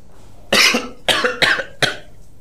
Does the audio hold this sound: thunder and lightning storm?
no